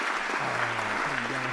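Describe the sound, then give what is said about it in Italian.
Audience applause fills the whole short clip as a dense, steady wash of clapping with no clear breaks. “ci facciamo un bel applauso, visto che ci siamo.”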